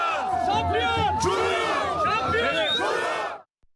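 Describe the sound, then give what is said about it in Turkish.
Football fans gathered outside a club's training facilities chant and sing marches in support of their team. Many loud voices join in a rousing, rhythmic chant, then stop abruptly near the end. “Çorum Futbol Kulübü tesisleri önünde toplanan taraftarlar tezahüratlar ve marşlarla takıma destek verdi.”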